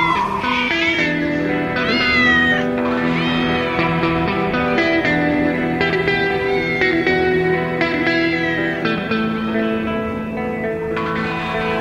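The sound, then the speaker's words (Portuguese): A cat meowing on the prairie, with repeated drawn-out meows rising and falling over a sustained tonal backing. Loud and continuous throughout. “Um gato na pradaria.”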